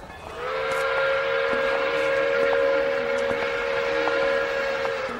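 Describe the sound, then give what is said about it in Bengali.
A train engine's whistle at a station, one long, steady, loud hoot that begins just after the start and holds to the end without a break. “ভোঁ বেজে উঠল ইঞ্জিনের দিক থেকে”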